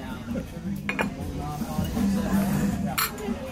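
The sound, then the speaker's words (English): A fork scrapes gravy off a plate of brisket at Nomad Lounge in Disney's Animal Kingdom, giving faint, low scraping with a couple of brighter metallic clinks against the plate. “That brisket and I am scraping the gravy with my fork, but I'm about to go with my finger because we're amongst friends and I don't care.”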